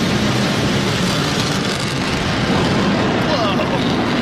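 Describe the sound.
A B-1 bomber roars past during a staged production, a loud, dense, steady jet roar that fills the whole clip without a break.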